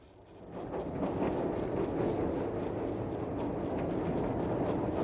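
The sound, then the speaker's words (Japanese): A steady, dense rumble fills the inside of a train on the way home. It sets in after a quieter start and continues evenly, with no voices heard. “帰りの電車の中で”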